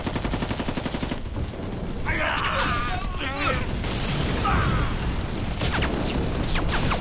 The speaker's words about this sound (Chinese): 果然有埋伏，全体射击！瞄准日本鬼子，给我打！